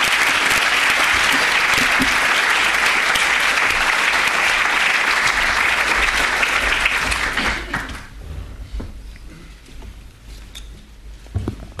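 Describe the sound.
Dense audience applause at an LSE lecture welcoming the lecturer, loud and sustained for about eight seconds before thinning into softer, scattered clapping.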